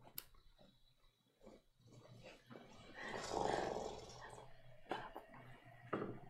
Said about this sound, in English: So it lets out a deep, low growl.